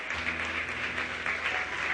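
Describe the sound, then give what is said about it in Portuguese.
Applause from a church audience clapping for the Lord, a dense, steady patter of many hands that continues throughout, with a low sustained tone underneath. “Você quer aplaudir ao Senhor?”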